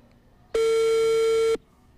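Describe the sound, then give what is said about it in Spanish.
A phone call ringing on the line and going unanswered, heard as one steady, flat electronic tone lasting about a second, with nothing else around it. “Y ahí está la llamada. Veremos si esta vez sí nos contesta.”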